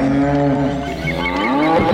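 Cattle mooing: a low, drawn-out, resonant bovine moo that holds steady and loud across the whole stretch, with no voices over it.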